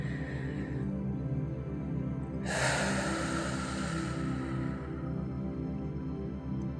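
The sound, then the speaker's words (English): A long, deep breath in is drawn audibly over a steady tonal background, rising as a soft breathy rush for a couple of seconds before fading. “Now, a big deep breath in.”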